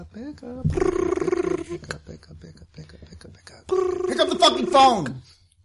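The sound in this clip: A ringing tone sounds on an outgoing phone call, with two long buzzing rings separated by a pause of a few seconds.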